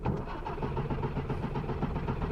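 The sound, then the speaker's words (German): A car engine cranks over and over without catching, a continuous rhythmic churning that runs through the whole moment as someone tries to get the car going. “Es wäre doch besser, wenn wir den Wagen in Gang bringen.”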